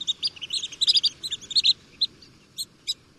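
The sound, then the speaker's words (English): Long-billed dowitcher shorebird giving high-pitched calls: many short, sharp chirps, first in a quick dense burst, then spaced out into a few separate notes over a soft background hiss. “Here's the high-pitched call of the long-billed dowitcher.”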